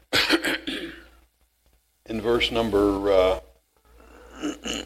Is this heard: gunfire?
no